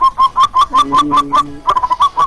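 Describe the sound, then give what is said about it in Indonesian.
A bird calling, with a rapid run of many short, bright chirps repeating steadily throughout. A low, soft cooing tone runs beneath them midway, and there is no talk. “Oh, burung juga salam juga dong. Itu burungnya juga mau titip salam”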